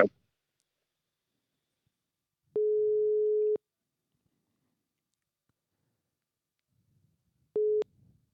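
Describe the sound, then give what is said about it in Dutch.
Telephone ringback tone on an outgoing call: a steady, mid-pitched tone lasting about a second, then a long silence, then a second, shorter tone that cuts off abruptly. “Dus ik ga, het is een hij en ik ga hem even bellen.”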